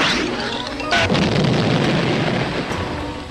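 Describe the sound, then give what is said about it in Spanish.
Bazookas firing in an audio drama battle scene: a loud, deep boom bursts out and rolls into a sustained, rumbling roar of explosion. “¡Bazucas! ¡Fuego!”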